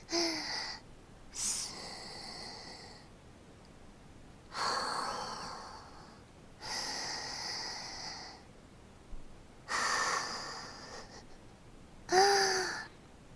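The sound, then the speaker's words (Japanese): Deep breathing: several quiet, breathy inhales and exhales in uneven bursts separated by short pauses, some with a sharp, gasping or snorting edge. No talk is heard. “深呼吸”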